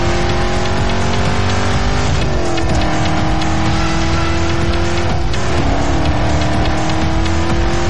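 A car accelerating with a loud, continuous engine roar that fills the whole stretch, its pitch climbing and breaking twice briefly, like gear changes, before rising again.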